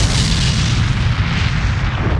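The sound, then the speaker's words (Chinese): Explosive, thunder-like boom from a huge hammer smashing into a giant spider in a forest: a loud, deep, continuous rumble that holds for the whole span, with no voices. “恐怖的爆炸力令森林中仿佛响起了一声炸雷”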